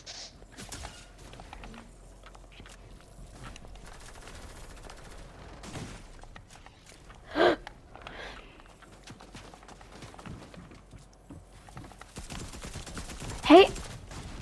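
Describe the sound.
Gunfire in the video game Fortnite on a Zone Wars map: many rapid clicks and crackles of shots run throughout, with two sharper, louder bursts standing out, one in the middle and one near the end.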